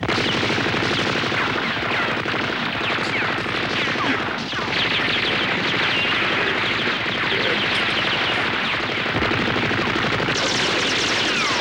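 Guns are fired in sustained, rapid bursts, a thick crackle of many overlapping shots that runs steadily from start to finish.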